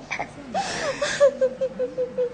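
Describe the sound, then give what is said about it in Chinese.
A daughter character cries in a Xi opera performance: a high, quavering wail, then a string of short, rhythmic sobs. “女儿啊，不要哭，不要哭了。”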